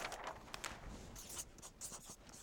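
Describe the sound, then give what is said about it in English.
Writing on a flip chart gives faint, scratchy strokes in quick bursts, with short pauses between them. “I'm going to write objections on the chart here.”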